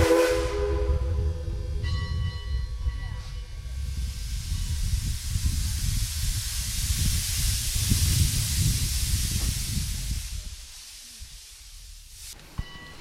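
A train moving along an Appalachian logging railway while someone rides it. Steady whistle tones sound at the start over a continuous hissing, rumbling rush. The noise fades near the end, and a single sharp click follows.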